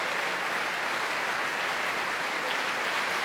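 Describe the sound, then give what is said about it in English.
Applause from a packed opera audience at Covent Garden after a performance of Otello as the principals take their bows: a dense, steady wash of clapping, moderately loud and even throughout. “The curtain rises and the cheers ring out for the principals, Rodrigo Cassio, Emilia, Otello, Desdemona, Iago, Lodovico and Montano, as they take the first of their bows in the front of the stage,”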